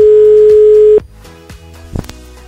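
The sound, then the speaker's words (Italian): Ringback tone on an outgoing phone call: one steady, mid-pitched tone lasts about a second at fair loudness, then stops abruptly. Faint line noise and a few soft clicks follow. “Proviamo a chiamarlo, vediamo se ci risponde. Lui non ne sa nulla, logicamente. Suona libero, vediamo se risponde Gabriele.”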